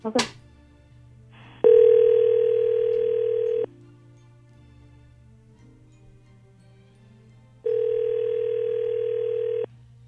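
A telephone ringing tone plays while calling someone: two long, steady buzzing tones, each about two seconds, separated by several seconds of near silence, after a brief click at the start.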